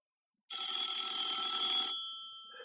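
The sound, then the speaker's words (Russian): A telephone bell rings loudly in one sustained, bright burst of about a second and a half, then cuts off and leaves a thin tone fading away. No voices are heard. “Следующий звонок был от Босса.”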